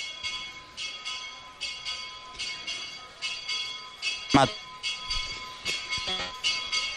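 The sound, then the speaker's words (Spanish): A small hermitage bell rings during a country pilgrimage festival. It gives many bright, ringing strokes in a steady, quick rhythm, with a couple of sharper knocks in between. “Sonando el campanil de la ermita en este momento”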